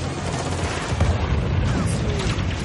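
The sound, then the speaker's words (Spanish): A rocket launcher fires from snowmobiles and the projectile strikes snow beside a dodging tank in an action-film chase, heard as a loud, dense, continuous din of blasts and rumbling with no clearly separate shots. “El soldado con el lanzacohetes dispara de nuevo. El tanque esquiva el proyectil que impacta en la nieve.”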